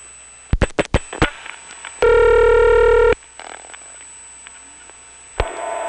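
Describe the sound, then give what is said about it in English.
Telephone dialing on a T-carrier line to a Manassas, Virginia number: a few sharp clicks, then a steady buzzy tone for about a second, faint line hiss, and one more click near the end. “So let's dial 3.”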